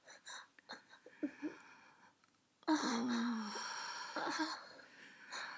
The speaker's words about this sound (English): Oh, he exhaled so hard right then. All over me. so warm and heavy.